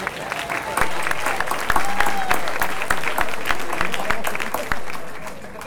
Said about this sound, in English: It's not the music, it's the sound man. Give him a hand, you want to?